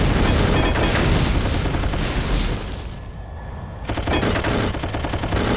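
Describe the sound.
Rapid machine gun fire in a video game rattles loudly and continuously, dips briefly, then resumes at full intensity.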